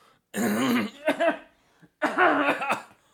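Someone with something stuck in the throat clears it and coughs in two rough, voiced bursts of about a second each, separated by a short pause.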